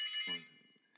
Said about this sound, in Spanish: espera, vuelves a que deje de sonar el teléfono y vuelves